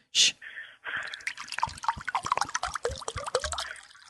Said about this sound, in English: That's the sound of spring water being poured from one glass bottle into another glass.